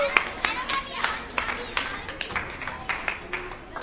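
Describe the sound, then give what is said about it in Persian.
A small audience claps hands in a steady, rhythmic beat of sharp, fairly faint claps, with voices talking underneath. “بابا یه تشویق بکنی”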